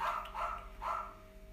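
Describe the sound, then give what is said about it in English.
A small Bichon-type dog yaps, a few quick, high, rasping barks in a row with no talk over them. “Oh, shut up, little dog. I know, that is a gobby little dog. Is it a poodle? Oh boy. It's a Bichon-y type,”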